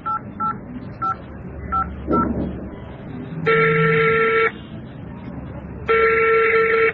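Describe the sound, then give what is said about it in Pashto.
A phone number is dialed: five short touch-tone beeps, evenly pitched and spaced, then two long, loud ringback tones separated by a pause. “دا به اوس ورته زنګ ووهم.”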